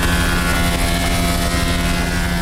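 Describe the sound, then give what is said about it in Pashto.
Loud, continuous mechanical roar of a machine saw cutting wood for door-making in a carpentry workshop, a dense steady drone with a low humming undertone and no voices. “دا هم د نجارۍ یو فابریکه ده چې پکې په ماشین لرګي اره کیږي او د دروازو جوړولو لپاره برابروي.”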